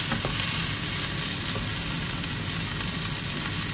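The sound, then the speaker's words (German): Thawed blueberries fry in a pan with a dense, steady sizzle that crackles and hisses evenly throughout, with no voices. “wir haben jetzt halt aufgetaut und die machen wir jetzt in die Pfanne und das stellen wir runter.”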